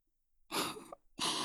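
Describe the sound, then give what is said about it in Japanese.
Gentle puffs of blown breath, as if blowing something away: two soft, airy bursts of about half a second each, the second cut off at the end, with nothing else heard. “ちょっとおとなしくしててね。ふうふうして軽く飛ばしちゃうから。”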